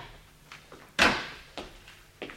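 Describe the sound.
A cupboard door is opened: one distinct clunk stands out among a few softer clicks and knocks in an otherwise quiet space.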